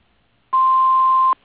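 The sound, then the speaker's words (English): A single answering-machine voicemail beep: a loud, steady mid-pitched tone lasting under a second that starts and stops abruptly. “If you'd like to leave a message, please do so after the beep.”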